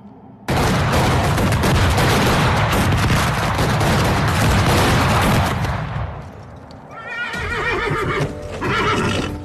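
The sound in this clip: A dense volley of gunfire in a dramatized street assassination keeps up as a loud, unbroken crackle for several seconds and then fades. Whinnying horses follow.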